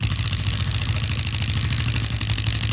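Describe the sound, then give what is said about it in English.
A prize wheel holding ward and city names spins with a loud, continuous rapid clattering that stays dense and steady throughout, with a low rumbling undertone. “we have spun the Wheel of Wards.”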